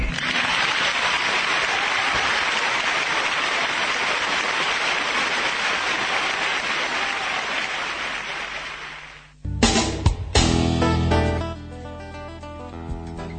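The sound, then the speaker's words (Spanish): Studio applause for an interviewee on a radio programme: dense, steady clapping lasts about nine seconds, then fades into a short burst of music. “Fue tan hermoso lo que dijiste que vamos a inaugurar una nueva sección del programa que es aplaudir al entrevistado.”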